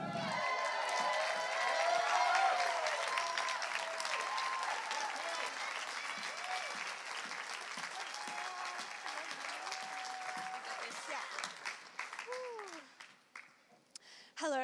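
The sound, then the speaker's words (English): An audience applauds to welcome a speaker, a long, steady burst of clapping that slowly thins and dies away near the end, just as a voice begins. “could you please put your hands together and welcome Rachel Sumpton?”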